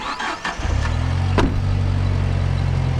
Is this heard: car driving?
yes